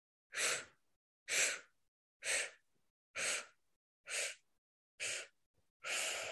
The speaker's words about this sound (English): So it's a 7-part inhale through the mouth. So we're sipping the air in like we're sipping through a straw. So it sounds like this.